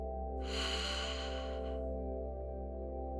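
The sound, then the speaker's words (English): An ujjayi ocean breath: one whispered exhale with a constricted throat, soft and airy, lasting over a second. A steady, quiet droning tone continues beneath it. “Let the sound remind you of ocean waves rising and falling. Notice the slight constriction at the back of your throat as you whisper.”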